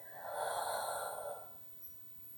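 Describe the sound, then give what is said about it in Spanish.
One deep breath, drawn in through the nose and pushed out through the mouth during a guided relaxation with eyes closed, a soft, hollow airy rush lasting over a second, then a faint short snuffle. “Inhala profundamente por tu nariz. Y por tu boca suelta todo el aire.”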